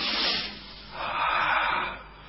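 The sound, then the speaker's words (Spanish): Heavy, loud breathing: two long, airy breaths in succession, rough and noisy, with no talk. “Otro ruido. Respiraciones. Escuchar una fuerte respiración”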